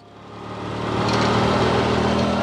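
Vehicle engine running while driving around a farm near Tipton in central Missouri, a steady, dense rumble that swells in loudness over the first second and then holds loud and even.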